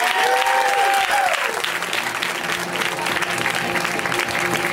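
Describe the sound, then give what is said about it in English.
An audience applauds as comedian Rory Scovel is welcomed to the stage, with many hands clapping steadily throughout and a shouted voice rising over the clapping at the beginning before the applause carries on alone. “So, please welcome to the stage the very hilarious Rory Scovel. Give it up for Rory!”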